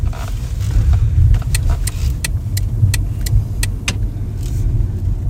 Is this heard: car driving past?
yes